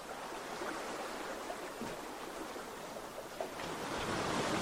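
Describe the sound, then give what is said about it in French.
Gentle sea waves and flowing water make a soft, steady, broad wash that swells slightly toward the end, with no voices. “Le bruit de l'eau, toujours. Qui vous guide et vous rassure.”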